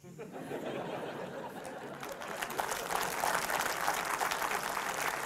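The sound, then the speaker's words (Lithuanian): An audience applauding during a political speech, with clapping that starts at a moderate level and swells noticeably louder partway through, continuing as a dense patter to the end. “Bet neįsijauskit, neįsijauskit su tais plojimais.”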